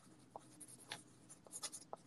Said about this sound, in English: Wait, okay, let me write this down.